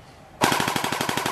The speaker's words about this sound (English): That's the sound of a gel blaster being fired.